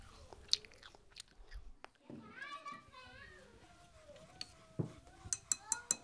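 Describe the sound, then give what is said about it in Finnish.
Crunchy bites and chewing of an apple: a few sharp, crisp bites with softer chewing between them, mixed with a child's voice and playful vocal sounds. “Omena tulee. Maistuu hyvältä. Purra, purra.”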